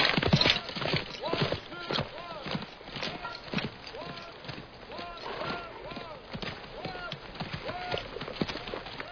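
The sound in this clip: Horse hooves clip-clop in a steady, uneven stream of hollow knocks throughout, with voices talking over them.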